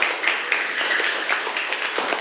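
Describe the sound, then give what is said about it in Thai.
Classroom clapping: a group of students applauds together, producing dense, bright, continuous clapping with irregular sharper claps standing out, steady in loudness throughout, with no speech over it. “ปรบมือให้กับสิทธิโชติด้วยค่ะ”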